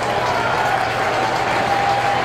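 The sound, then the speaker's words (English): A huge baseball crowd at Citizens Bank Park, home of the Phillies, roars and claps during a full-count at-bat, a loud, dense and unbroken wall of cheering. “Fans trying to help him out. Huge crowd here at Citizens Bank Park”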